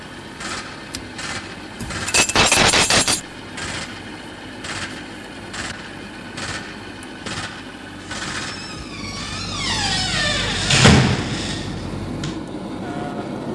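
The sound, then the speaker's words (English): An automatic door opening after a short wait: a steady mechanical hum with scattered clicks and knocks, then a louder whirring surge with a falling whine that fades back to the hum. “Well, it's just sitting there sorting things out. It'll open the door in a few seconds. About 4 seconds.”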